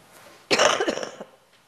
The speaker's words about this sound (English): excuse me, I'm going to just cough in a minute